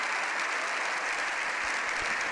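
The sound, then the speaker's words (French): Sustained applause from an audience at a live event fills the whole clip as a dense, even wash of clapping with no pauses. “Et c'est sous ces applaudissements qui se poursuivent que”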